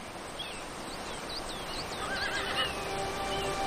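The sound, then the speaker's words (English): A horse whinnies as a rider gallops it down a hill: a few high, wavering neighs, fairly faint, over a steady rumbling background. “A man on a horse gallops down a hill toward”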